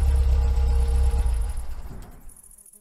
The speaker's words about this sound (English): I pulled up right next to it and turned the car off.